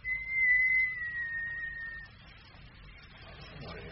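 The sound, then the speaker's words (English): A person whistles one long, high, fairly quiet note that dips slightly in pitch and stops after about two seconds, leaving faint background noise. “I'll give a whistle, if I may. Yes, go on. Whistle away.”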